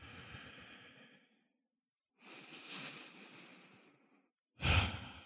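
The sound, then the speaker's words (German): Deep, slow breathing during a guided meditation: three soft, airy breaths separated by short pauses, quiet and unaccompanied by talk. “Und atme ein paar Mal tief runter bis in deine Füße.”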